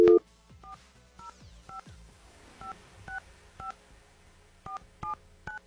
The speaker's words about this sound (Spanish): si no hablo es que estoy bien concentrada, marcando aquí el número telefónico correctamente.